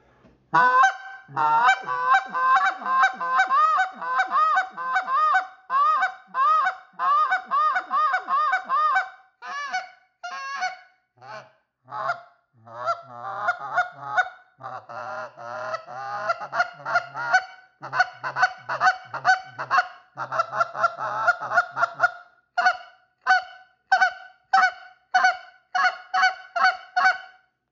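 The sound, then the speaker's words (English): Rapid goose honks and clucks from an Alpha goose call, a hunting call pitched higher and faster than an older model. Many quick, loud notes come in tight bursts, alone, with a short pause near the middle. “But I'm going to run the Alpha for you, and you can hear the difference between the two. But the Alpha's going to be a little bit faster, a little bit higher pitch than the old man.”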